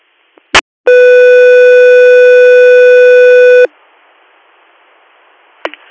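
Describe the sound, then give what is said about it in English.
Radio dispatch alert tone for an air medical service: a sharp click, then one loud, steady, buzzy tone held for about three seconds, followed by radio hiss and another click. “Guthrie Air, stand by for tones.”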